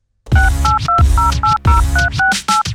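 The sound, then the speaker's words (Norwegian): Telephone dialing a call: many short touch-tone beeps, each a steady two-note tone, follow one another in a quick, even rhythm over a dense, loud low backing sound. “Ja, vi skal ringe som vi bruker å gjøre.”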